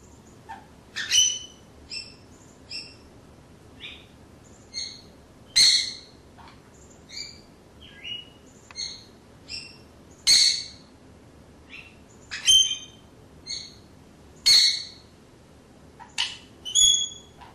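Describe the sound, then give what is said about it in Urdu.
Birds singing an antiphonal duet, with many bright, sharp chirps and whistled notes in an irregular, alternating rhythm. A few louder, fuller phrases stand out among the softer calls, and no voices are heard. “Anti فونل ڈویٹنگ سننا تھوڑا سا نایاب ہے، لیکن اسے سننے والا کسی صورت یہ نہیں کہہ سکتا کہ پرندے کے اس بیہیویئر کا کوئی مطلب نہیں یا یہ ایک بے معنی بولی بول رہا ہے۔”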